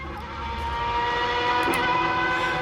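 A piston engine runs with a steady, continuous droning roar and a sustained harmonic tone, even in level throughout with no talk.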